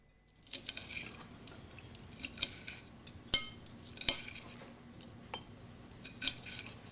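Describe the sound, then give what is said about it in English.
Salad leaves being cut up on a plate, quiet irregular scrapes and rustles broken by a few sharp clinks of a knife against the dish. “Shelley cuts up her salad leaves.”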